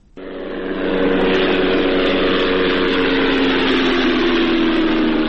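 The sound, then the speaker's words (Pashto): An unmanned drone flies overhead in Ghazni province, Afghanistan, making a loud, steady engine drone with a tonal buzz. The sound sets in abruptly, swells within the first second and then holds constant. “دا د هغه بی پیلوټ الوتکې غږ دی چې پر افغانستان د طالبانو له حاکمیت څخه وروسته هم د غزنی ولایت تر څنګ د پکتیا، پکتیکا او ځینو نورو ولایتونو په هوا کې ګرځي.”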